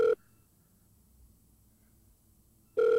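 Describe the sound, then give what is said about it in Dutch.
Ringback tone of an outgoing telephone call: two short, steady, mid-pitched tone bursts, one at the start and one at the end, separated by about two and a half seconds of near silence. “Ik ga even bellen. Nou, hij gaat over”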